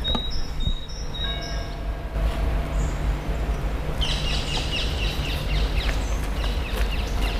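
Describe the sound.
Birds sing in a botanical garden in spring, with a few bursts of high chirping calls over a steady low background rumble.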